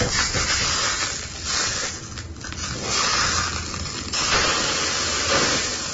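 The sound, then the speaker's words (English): Burgers fry on a barbecue, giving a continuous loud sizzling hiss that swells and eases slightly throughout. “Burgers on a barbecue.”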